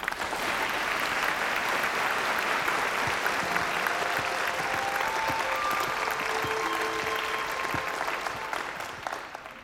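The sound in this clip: Applause from a whole theatre audience standing in the hall: a dense, steady roar of many clapping hands that holds at an even, loud level throughout, then thins and softens slightly in the final second.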